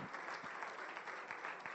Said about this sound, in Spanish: Sí, dése el aplauso con fuerza.